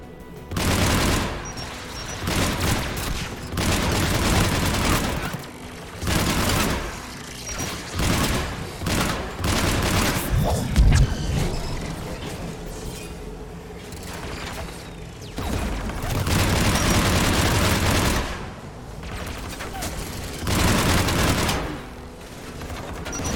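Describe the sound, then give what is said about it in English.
Anti-aircraft guns firing in a video game, many loud bursts of rapid automatic fire separated by short pauses, with heavy booms and mechanical clatter mixed in. “There, the anti-aircraft guns.”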